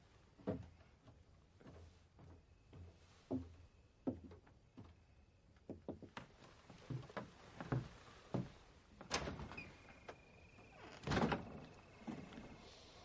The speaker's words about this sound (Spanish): abre la puerta